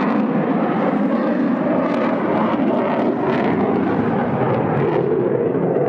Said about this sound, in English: A bunch of people are sitting out in front and on the deck watching the F-22 fly.